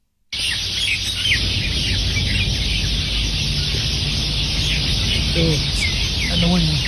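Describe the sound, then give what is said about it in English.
Sparrows chirping in trees in a yard: a dense, continuous chatter of high, scratchy chirps over a steady wash of noise, with a few sharper calls standing out near the end. “And those neighbours specifically are the local sparrow population, the sparrows of Onikawa. And they sound like this.”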